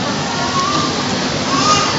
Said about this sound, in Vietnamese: chiều hôm nay chúng ta chứng kiến những cơn mưa cuối mùa.